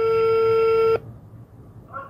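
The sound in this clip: Telephone tone as a call is placed to a school principal: one steady, pure pitched tone holds for about a second, then cuts off abruptly into near silence.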